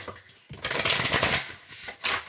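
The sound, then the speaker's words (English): Oracle cards being shuffled by hand: a steady, papery riffling and sliding that starts after a brief quiet moment and runs continuously to the end, with a short flurry near the close. “And we're just gonna shuffle and see what we have for us today.”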